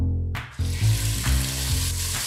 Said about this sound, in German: Die fein gewürfelten Lammherzen werden in Butterschmalz angebraten.